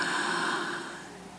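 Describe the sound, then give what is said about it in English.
One deep, steady inhale, a continuous breathy hiss that holds its level and then gradually fades, heard alone without any talk. “will take an inhale and then an exhale. Another big inhale”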